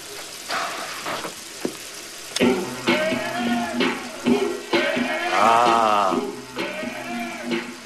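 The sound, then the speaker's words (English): Water rushes from a faucet in a restroom, a steady hissing flow that starts after a couple of faint clicks and runs on with fluctuating tonal whines riding over it. “turns on the faucet”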